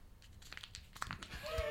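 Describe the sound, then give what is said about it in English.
Crinkling and crumpling of an A4 paper sheet: a quick run of soft, crackly rustles at low level that grow slightly denser toward the end. “Like, I just want to crumple it. Get a crumple on here.”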